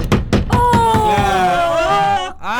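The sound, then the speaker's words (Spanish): Someone banging on a table, giving a rapid run of sharp, loud thumps over the first second, overlapped by a sustained, voice-like tone that slowly falls in pitch before fading. “Me asusto cuando empieza a golpear la mesa.”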